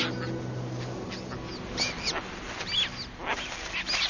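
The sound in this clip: Calls from a nesting colony of Caspian terns, where the first chicks have hatched: scattered short, high, harsh cries come and go at a fairly faint level over a quiet background.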